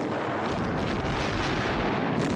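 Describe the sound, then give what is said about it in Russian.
Artillery shells burst behind trenches in a war documentary soundtrack, heard as a continuous, loud, roaring rumble of dense blasts with no pause. “Танки и пехота продолжают приближаться, не сбавляя скорости. Выпущенные снаряды ложатся за окопами.”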